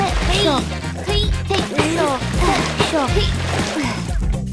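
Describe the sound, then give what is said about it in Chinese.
Water splashing and sloshing as buckets are filled, busy and continuous, heard under children's voices that talk throughout. “很快的，每一个水桶都被装满了水。”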